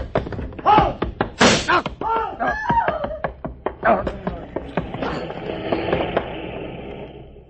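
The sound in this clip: Gunshots ring out during a radio drama police shootout on a street with pedestrians nearby. A few sharp, loud bangs mix with thuds and shouting voices.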